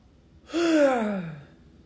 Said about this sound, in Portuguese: Inspira e solta.